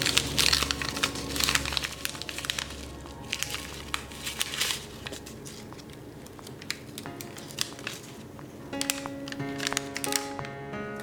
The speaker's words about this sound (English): sound effect with the paper and tinfoil with my knuckles rustling up against it.